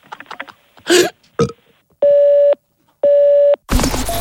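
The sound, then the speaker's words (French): A telephone call to a school ringing through to an answering machine: two long, steady, even ring tones separated by a short gap. Brief clicks and noises come before them, and a sudden burst of noise follows as the line picks up. “Ah bah voilà, j'appelle le collège, évidemment, c'est le répondeur.”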